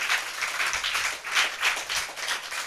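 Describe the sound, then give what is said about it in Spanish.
Applause from a church audience during a Spanish-language sermon: steady, dense clapping that holds at an even level for the whole stretch, with no voices over it. “Amén, amén, si quiere aplaudir, aplauda.”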